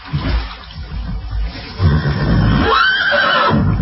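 A horse whinnies beside a boat at the water's edge: after low, muffled rumbling noises comes a single clear whinny that rises and then falls away near the end.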